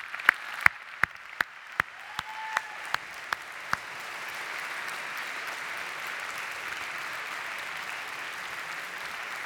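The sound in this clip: Audience applause welcomes a speaker on a college campus. It opens with a run of sharp, evenly spaced single claps, then swells into a steady, sustained wash of clapping that continues to the end.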